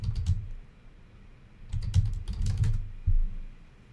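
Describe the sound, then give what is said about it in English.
Keys clatter on a computer keyboard: a short burst of taps, a pause, then a longer run of many quick keystrokes and one last tap, fairly faint with no voices. “So let's type in”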